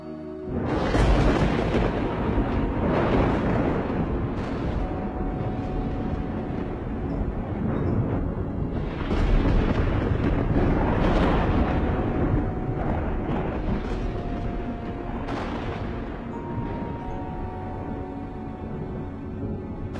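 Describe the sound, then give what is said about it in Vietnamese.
Thunder rolls through an overcast sky in a continuous deep, loud roar lasting about twenty seconds. Several heavier surges rise and ease back within the rumble. “trên bầu trời vốn dĩ âm u mấy ngày hôm nay vang lên một tiếng sấm đến động cả trời đất.”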